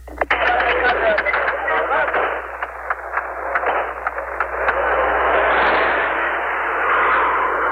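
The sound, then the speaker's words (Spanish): Combat between Israeli forces and guerrillas near the Lebanese border. Many sharp gunshot cracks punctuate a dense, rumbling din in the first half, then give way to a steadier, sustained roar. “Salimos del vehículo y captamos brevemente algunos episodios del combate. Escuchemos.”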